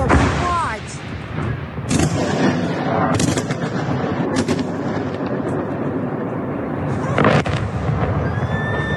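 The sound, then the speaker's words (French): Missile strikes on Kyiv filmed by a resident from her home: several loud, sharp bangs and booms break through a constant rumbling roar. “Même scène à Kiev, où cette habitante a filmé les frappes depuis chez elle.”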